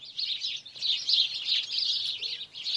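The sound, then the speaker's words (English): A group of sparrows chirps in a dense chatter of bright, high twittering calls that runs continuously with no voices. “here is the song of a group of sparrows.”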